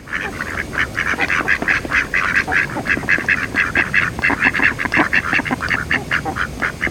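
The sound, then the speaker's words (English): Six noisy ducklings hatch from their eggs, giving many loud, nasal quacks and honks in quick, rhythmic bursts that run without pause from start to finish, with no talking. “And look, the eggs are hatching. 6 noisy ducklings with yellow feathers are coming out of the eggs.”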